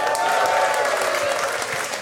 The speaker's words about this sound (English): Which, as a title, doesn't deserve applause, but it is a fun game.